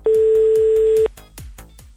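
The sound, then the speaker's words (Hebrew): A telephone call being dialed: a steady, loud electronic tone lasts about a second, with quieter rhythmic pulses repeating throughout and continuing after the tone stops. “בסדר, הנה אנחנו מחייגים שוב.”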